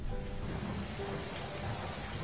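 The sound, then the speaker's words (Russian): Steady warm rain, bright and ringing, falls in a continuous dense patter of drops with no distinct pauses or voices. “А тут дождик начался. Звонкий такой дождик, веселый, теплый-притеплый.”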